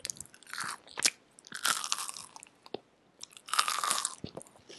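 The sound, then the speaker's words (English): Crisp crunching and chewing of an organic snack comes in three bursts of brittle bites and mastication separated by short pauses. It is fairly quiet, with no talk. “Can you give us a little bit of food ASMR?”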